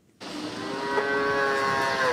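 A calf on a farm in Hohenlohe moos loudly at morning feeding time as milk is brought in buckets: one long, sustained, harmonic call that starts abruptly and holds steady to the end.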